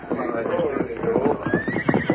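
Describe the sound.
Saddled horses neigh over a steady rhythm of hoof clip-clop, with a high whinny standing out above the repeated hoof beats throughout.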